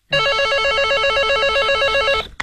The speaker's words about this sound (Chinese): 正在这时，电话铃响了起来。